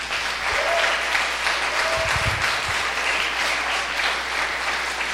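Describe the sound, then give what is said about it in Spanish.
Congregation applause for youth leaders and pastors at a church sermon, a steady, even roar of many clapping hands lasting the whole stretch without clear breaks. “Denle un aplauso a esos líderes”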